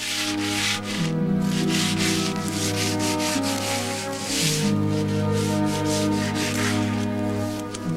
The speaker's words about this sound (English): He grabs a piece of sandpaper and rubs down a window frame as a warder approaches, checks on him, and leaves.